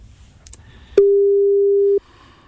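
Telephone ringing tone while calling someone: a single steady, loud, mid-pitched tone lasting about one second, preceded and followed by faint low background noise.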